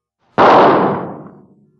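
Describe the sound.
A single gunshot cracks out loud and sharp, then decays slowly into a long fading rumble.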